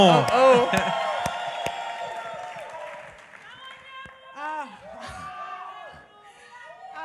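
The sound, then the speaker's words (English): A round of applause and cheers at a church gathering, loudest at the start and tapering off, with voices talking and calling out over the clapping. “Come on, give us some round of applause,”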